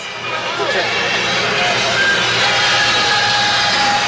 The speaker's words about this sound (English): the idling bus should be explained that it's out there, and you're hearing a close-up of it now, courtesy of Kill Radio.